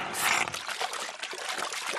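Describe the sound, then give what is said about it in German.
Cartoon sound effect of a dinosaur slurping up pond water: a loud, continuous gurgling, sucking liquid rush that swells near the start and then holds steady, with no voices. “Wozu bin ich denn ein Kallisaurier? Oha. Kalli schlürft den Teich aus.”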